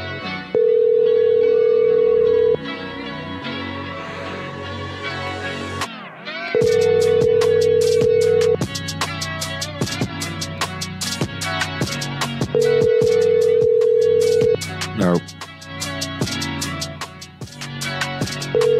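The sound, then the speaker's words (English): Ringback tone of a telephone call to someone's voicemail line: three long steady tones of about two seconds each, evenly spaced by longer pauses, a fourth starting at the end, with other sound running continuously beneath. “She still hasn't fixed the voicemail. That's amazing. We might have to listen to her voicemail, see what people have been saying on there.”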